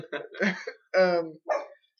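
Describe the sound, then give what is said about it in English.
A pet dog barking indoors, three harsh barks in quick succession. The middle bark is longer and more tonal than the other two, and there is no talk over them. “sorry about my dog barking. I'm hoping that they'll settle down.”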